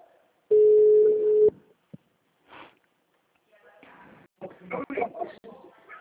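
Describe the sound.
Ringing tone of an outgoing telephone call: a single steady, mid-pitched ring about one second long, followed by quiet clicks and then people talking.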